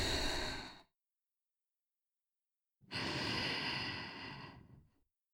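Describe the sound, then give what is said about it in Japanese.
Slow breathing in and out, heard as two long, airy breaths with a silent gap between them. The second breath swells and then fades away, soft and unaccompanied. “吸って、吐いて、”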